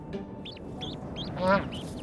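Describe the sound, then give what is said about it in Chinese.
Bar-headed goose goslings hatching in a burrow nest give faint, high, thin peeping calls in a quick series, with one louder, lower honking call from an adult, over a steady background hiss. “住在洞穴里的这家斑头雁也等到了幼鸟破壳而出，从母雁身体下钻上来的这一刻”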